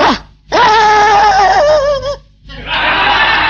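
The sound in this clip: A man imitating a dog with his voice: a brief yelp, then two long, strained, wavering howl-like barks, loud and nasal, with short silences between them.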